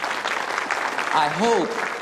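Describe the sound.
An audience applauds an orchestra's performance during a church service, with steady, dense clapping throughout and a brief voice rising above it near the end.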